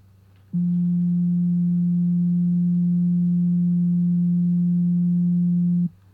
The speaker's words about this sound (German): Bei Nummer 2 sollt ihr euch den folgenden Ton merken, wieder ohne mitzusummen oder mitzusingen.